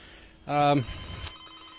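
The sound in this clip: A telephone rings once on a call-in line at a radio station as a caller phones in, a single loud, bright, buzzy burst of stacked tones lasting about a third of a second, followed by faint low talk.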